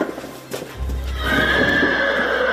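Horses gathered together in one spot in a village: one lets out a long, high, wavering whinny over a steady low rumble that begins shortly after a brief quieter moment.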